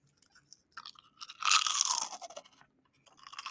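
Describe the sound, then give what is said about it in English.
Crunchy chewing of a crispy fried seaweed snack with a fried paste coating and sweet-corn flavoring. A loud, dense run of crunching sits in the middle, with lighter crunches before it and another burst at the end, and no talk. “it's basically seaweed that has this like crispy layer of, I don't know, like this paste that it's fried with. And this one is flavored and it's sweet corn.”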